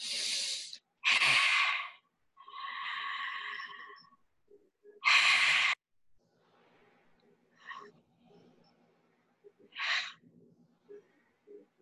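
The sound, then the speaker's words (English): Deep breaths drawn in and pushed out through the mouth, a few loud airy whooshes in succession, one carrying a faint voiced tone, followed by quieter soft rustles. “Just going to take three deep breaths in and out of your mouth”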